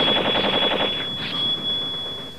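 A rapid burst of gunfire from a gun in a fight against a swordsman, a fast string of sharp, loud shots packed into the first second, followed by a thin, steady high ringing tone.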